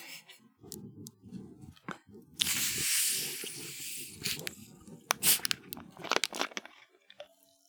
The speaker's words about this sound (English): delicious Faygo grape. Some good old Shaggy's nut bag. All right, let's crack them open.